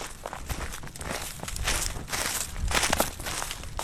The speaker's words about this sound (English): We are coming to the intersection of some trails here. We've been walking on the stream trail, and now we're coming to the mill trail.